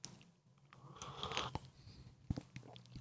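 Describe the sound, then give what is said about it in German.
Faint sipping of matcha tea: quiet mouth and lip noises with a soft slurp and a few small clicks and knocks over a near-silent background, with no talking. “Ich trinke mal kurz einen Schluck Matcha.”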